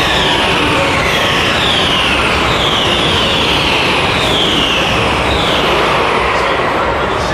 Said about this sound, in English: There is a bump on the outside of the circuit where the cars leap over and their rear wheels leave the ground as they go over it.